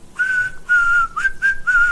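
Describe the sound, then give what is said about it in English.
Whistling of a little tune by a person: a clear, fairly high, pure tone in a few sustained phrases with short breaks between them. The pitch stays mostly level, with a brief upward slide near the middle. No talking. “All you did was whistle a little tune, right?”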